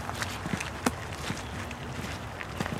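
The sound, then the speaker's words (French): Footsteps taking small, careful steps through slippery mud: a few soft, faint thuds at an irregular pace. “Je marche à petits pas pour pas me casser la figure. Éviter le grand aquaplaning dans la boue”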